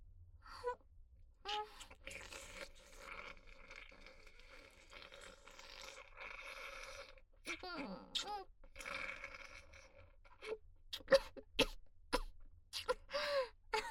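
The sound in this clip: A person breaks into choking coughs, with sputtering bursts, throat clearing and short gasps at irregular intervals, fairly faint at first and growing louder toward the end.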